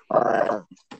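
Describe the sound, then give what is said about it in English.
A small 10-pound female French bulldog gives one gruff, rumbling growl lasting about half a second, followed by two brief low grunts. “It's a 10-pound French bulldog that thinks she's 30 pounds.”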